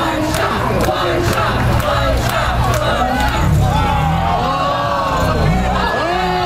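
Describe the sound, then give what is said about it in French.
Hundreds of spectators at a first-ever street competition in Philadelphia with fifteen competitors; loud, continuous cheering and shouting with many overlapping voices throughout. “Le son d'une compétition inédite. On est à Philadelphie. Et oui, pour la première fois samedi dernier, 15 concurrents se sont affrontés dans les rues de Philadelphie devant des centaines de spectateurs”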